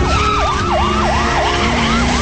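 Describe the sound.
Police car siren, a loud, rapid yelping wail that swoops up and down repeatedly over a steady background rumble, with no voices.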